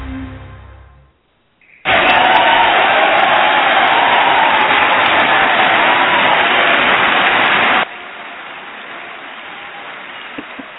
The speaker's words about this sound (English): That's, of course, the live studio audience here at Cyberfield Spotlight. Hey, thanks for coming in, live studio audience. That's just a little kind of a running gag we do.